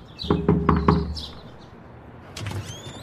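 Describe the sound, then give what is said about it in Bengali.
Knocking on a door beside a verandah in a house: four quick, sharp raps in a steady rhythm, followed by quieter sounds after a pause. “পাশেই একটা দরজা পড়ে বোমকেশ সেই দরজায় টোকা মারল”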